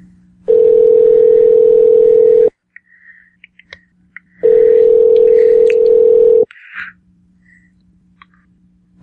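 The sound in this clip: A telephone call is placed to a number and the line rings: two long, steady, loud ringing tones, each about two seconds, separated by a pause with scattered faint clicks.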